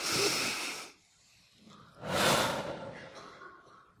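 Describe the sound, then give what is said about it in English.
An audience takes a deep breath together during a church service: two broad, airy rushes of breath with no talk, the first short and the second longer and slowly fading. “Okay, now I want you all to take a deep breath with me.”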